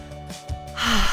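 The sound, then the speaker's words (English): Someone takes a big, deep breath, a slow airy inhale that swells into a louder, breathy exhale, with no words spoken. “can we just take a big, deep breath together? Do it with me.”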